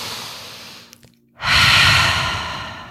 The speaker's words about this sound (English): just take a deep breath right now.